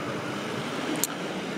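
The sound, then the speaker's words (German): Police car driving past on a street, heard as a steady, moderately loud engine and tyre rumble throughout. “Jetzt fährt gerade der Polizeiwagen vorbei, deswegen gehe ich einen Schritt zur Seite.”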